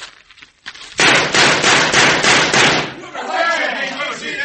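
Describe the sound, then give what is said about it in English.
Gunshots fired at a target during a shooting contest: a rapid burst of many loud, sharp cracks run together for about two seconds, followed by a rougher, noisy wash. “Look like there's only one new bullet hole in this target. All the other shots are from Kip Redden's gun.”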